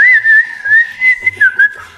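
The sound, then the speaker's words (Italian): Lively whistling of a bright, wavering melody in several short rising and falling phrases, clear and loud, with no talk. “Per provare, la tavola iniziò a fischiare”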